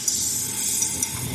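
An egg sizzles on a griddle while danbing, a wheat-flour egg crepe, is being made. It gives a steady bright hiss with a few faint pops and no voices.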